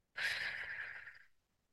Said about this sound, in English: you breathe in through your nose, and then you breathe out through your mouth, specifically with pursed lips, like this.